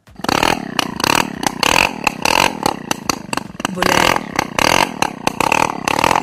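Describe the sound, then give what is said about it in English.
A Luna moped, a two-wheeler fitted with pedals, has its engine started: loud rattling, clattering bursts come in a fast, uneven rhythm, a harsh, raw mechanical sputter that keeps going throughout. “इस two wheeler पे paddles भी होते थे. Luna. Luna is the right answer.”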